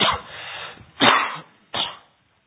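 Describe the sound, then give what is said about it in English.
Three harsh, breathy coughs from a cough that has lingered for a couple of weeks. The first is drawn out and rasping, the next two are short, sharp bursts, with no talk around them. “So sorry about my cough here. It's just been lingering for a couple weeks.”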